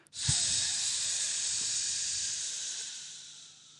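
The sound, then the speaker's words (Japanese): A long, steady exhale through the mouth during a deep-breathing exercise in voice training, heard as a single sustained airy hiss that holds evenly and then fades away at the end. “この状態でちょっと皆さんで一回深呼吸をやってみましょうじゃあ息を口から全部出します”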